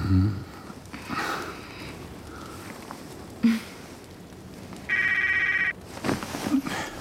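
A mobile phone ringtone sounds once as a short, bright electronic burst of repeating notes near the end, surrounded by soft rustling and breathy noises.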